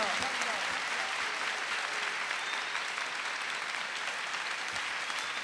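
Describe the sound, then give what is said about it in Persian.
An audience giving Kaf-e Heydari clapping: dense, continuous applause that stays loud and even for several seconds, with voices mixed in. “استقبال کن با یک کف حیدری اول بزن ماشاءالله”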